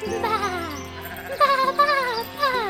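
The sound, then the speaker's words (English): Lambs bleating in a meadow: a few wavering, nasal bleats in quick succession, rising and falling in pitch, fairly loud and with no talk. “Then Lovey called to her lamb friends. Bah, let's play!”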